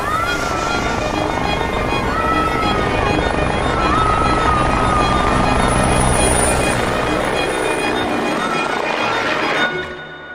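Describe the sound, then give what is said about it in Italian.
Helicopters appear from behind a hill, their loud, steady, droning rotor roar filling the whole stretch before dropping off sharply at the very end. “Da dietro la collina apparvero due elicotteri, due libellule di ferro, due grosse libellule blu”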